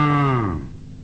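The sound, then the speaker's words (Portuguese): An ox mooing: a single short, low, tonal moo that slides downward in pitch and fades out within about a second. “O boizinho veio e mugiu, mugiu.”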